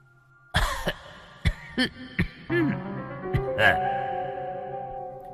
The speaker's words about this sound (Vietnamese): Có tiếng ho hành khạch khẽ vang lên.